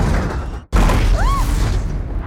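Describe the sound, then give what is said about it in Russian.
Loud grinding roar of an overturned subway car sliding on its side along the rails and throwing sparks toward a tunnel wall. It breaks off briefly, then returns as a sustained heavy rumble with a short, high metallic screech in the middle. “Высекая искры, вагон летит к стене.”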